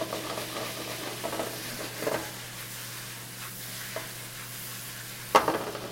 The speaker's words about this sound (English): You just throw that right directly into your pan.